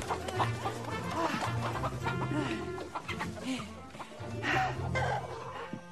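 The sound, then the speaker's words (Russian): Chickens clucking as they scatter away from a person trying to catch one, with busy, overlapping clucks running throughout over a steady low tonal hum. “Куры разбегаются от нее.”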